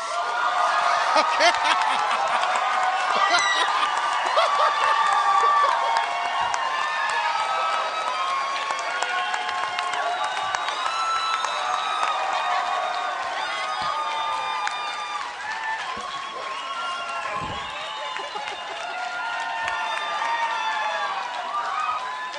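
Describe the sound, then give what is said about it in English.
A studio audience ululates to welcome a guest, with high, wavering trills rising over cheering and crowd noise. The sound stays loud and sustained throughout. “They're ululating. Well, they know when they're in the presence of royalty.”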